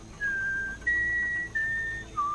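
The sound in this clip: A person whistling four clear, sustained notes with short gaps between them: the second note is the highest and the last is the lowest.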